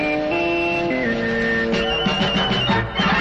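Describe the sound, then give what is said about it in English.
A short radio-network sports signature jingle made of held electronic tones that step between pitches, ending in brighter, pulsing notes. No voice is heard. “Our sports signature sounds like this.”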